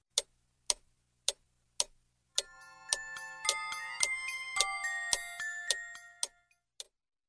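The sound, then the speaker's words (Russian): A large clock ticks a few times steadily, then plays a bright, tinkling chime melody for several seconds while the ticking continues underneath, ending on a couple of last ticks. “Подошла к большим часам, и они заиграли чуть-чуть громче.”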